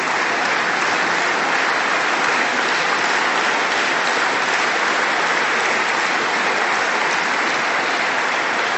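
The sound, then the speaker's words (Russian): Dense, sustained audience applause at a ceremony honoring educators, including a coach who rescued two people from a fire. The clapping is loud and even throughout, with no voices. “Я попрошу их подняться. Мы им аплодируем.”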